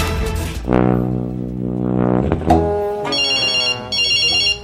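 Telephone ringing with a shrill electronic ringtone in two short bursts after a sustained harmonic tone, loud and with no talk.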